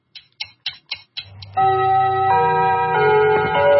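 A radio time signal marks seven o'clock in the evening with five short, evenly spaced pips. A loud, sustained chime follows, its layered tones shifting between notes as it rings on.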